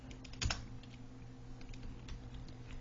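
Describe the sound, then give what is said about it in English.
Computer keyboard keys are pressed for a Command or Control V paste shortcut. One distinct clack is followed by a scattering of faint, light key clicks, all quiet. “I'm just going to hit Command or Control V to paste it and move it right over.”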